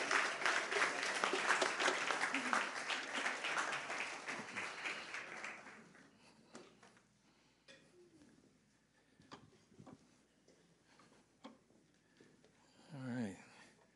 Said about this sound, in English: Let's give them another round of applause.